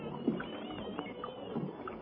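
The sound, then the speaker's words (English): A small boat is rowed over to a ship: faint, soft water splashes and light knocks come at irregular intervals over a low steady hiss. “Let's row over. They're letting down a ladder for us.”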